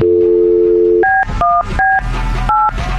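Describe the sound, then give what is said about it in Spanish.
A telephone number being dialed: a steady dial tone, then a quick series of loud, clipped keypad beeps with short gaps between them. “Ahí estamos marcando.”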